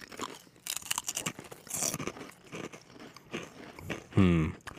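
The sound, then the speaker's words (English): Crunching bites into a barbecue-flavoured chip produce many crisp, crackling bursts in an uneven chewing rhythm, fairly faint overall, with a brief voiced sound near the end. “I'm going to try the chip. Let's do it.”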